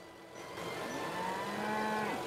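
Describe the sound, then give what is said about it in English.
A single long, low moo from cattle grazing in a field beside a country lane, the drawn-out call swelling gradually in loudness and heard on its own. “As the car makes its way along a country lane, Anne looks across at cattle grazing in a field.”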